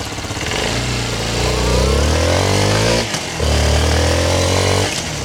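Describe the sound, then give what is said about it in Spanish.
Loud, throaty idle of a parked Suzuki DR160X motorcycle engine running steadily, with a brief dip partway through before the engine note picks up again and holds. “esta motocicleta Suzuki DR160X. Óigala cómo suena. Óigala. Parqueada, arranca.”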